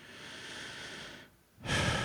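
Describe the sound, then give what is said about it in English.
A person takes a slow breath. A long, soft, airy rush is followed by a brief pause, then a second, stronger breath sound. “I can just take a breath and relax.”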